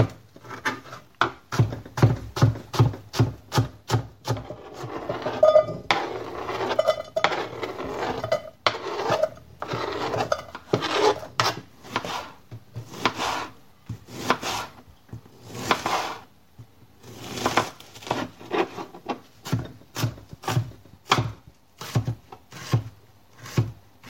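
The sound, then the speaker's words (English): Knife chopping an onion into dice on a board: many quick, sharp chops in uneven rhythmic bursts with brief pauses, fairly loud and without talk. “and then I spin it so I can chop it along the z-axis. You know? So you'll wind up with diced onion that way.”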